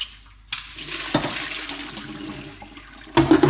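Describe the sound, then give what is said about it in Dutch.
Water gushes and splashes as a pan of chunky cooked vegetables is drained, a continuous rushing pour that swells unevenly and ends in a louder surge. “Ga ik ze afgieten.”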